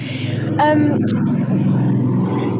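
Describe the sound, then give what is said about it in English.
A loud motorcycle passes outside a studio. A low, continuous engine rumble runs beneath people talking. “What is that? Is that a car outside your studio? Oh, that's a motorcycle. Is it? So loud.”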